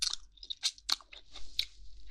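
Crunchy chewing and biting of chicken meat: a few moist, crisp crunches and bites in an uneven rhythm, fairly faint, with no talk.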